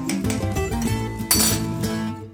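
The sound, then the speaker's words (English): An iced teaspoon clinks against a glass while stirring lavender lemonade, a steady run of bright, ringing taps with no talk. “right before you serve it, take your iced teaspoon, stir it up, and that is our summertime lavender lemonade.”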